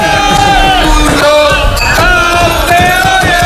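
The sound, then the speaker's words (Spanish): Loud shouting inside a bar as patrons react to a Moto3 world championship moment, a dense, continuous mix of raised, overlapping voices and yells. “Ese grito final es un, no llega a ser un irrinchi, es una cosa rara.”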